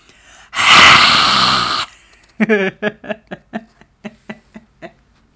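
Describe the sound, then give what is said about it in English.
Forceful exhale with the mouth wide open and tongue stuck out: a loud, breathy rush lasting over a second, followed by a string of short breathy pulses that fade away. “you're going to take a really deep inhale, And when you exhale, you're going to open your mouth as wide as you can, stick your tongue out as far as you can, and push it out.”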